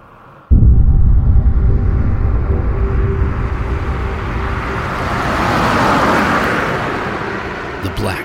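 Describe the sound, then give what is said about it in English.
Roaring rumble of a 1957 Chevrolet speeding at over 100 miles an hour down a county road, a loud, low engine-and-road roar that starts abruptly, holds steady for several seconds and swells slightly midway. “57 Chevy was topping 100 miles an hour as it raced down the county road”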